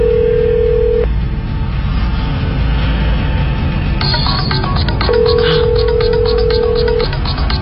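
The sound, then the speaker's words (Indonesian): A mobile phone ringing nearby after a call is placed: a few steady electronic tone bursts, with a brighter, higher burst in the middle, over constant background noise. “suara teleponnya, kok ada di sini ya?”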